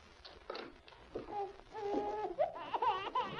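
A newborn baby boy's plaintive, muffled wail right after his birth: a wavering, high cry in several short bursts that grows stronger toward the end.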